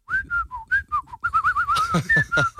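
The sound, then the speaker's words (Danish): Someone whistles a song tune in clear, short notes that step up and down in pitch, then moves into a wavering, trilled line with some breathy accents toward the end. “Men hvordan kan du være så god til at fløjte?”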